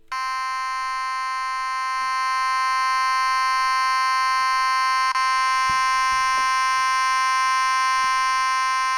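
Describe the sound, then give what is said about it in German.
A harsh alarm warning signal, a loud, continuous buzzing tone with a rich stack of overtones, sounding steadily and without a break for about nine seconds. “Das ist nun wirklich kein sehr schönes Geräusch. Das tut ja schon fast weh in den Ohren. Aber dieses Geräusch soll auch gar nicht schön sein. Dieses Geräusch ist nämlich ein Warnsignal.”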